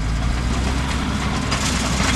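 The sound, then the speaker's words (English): Low, steady engine rumble from giant yellow dump trucks dropping tons of sand, a loud continuous idling drone with no clear change in pitch and no voices. “tons of sand get dropped out of giant yellow dump trucks as workers try to cut off the natural ebb and flow of fresh and salt water out of the lakes”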